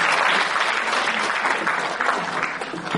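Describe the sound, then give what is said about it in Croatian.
Audience applause at a municipal cultural event: dense, steady clapping from a crowd that continues without pause throughout. “Pozdravimo ga aplauzom.”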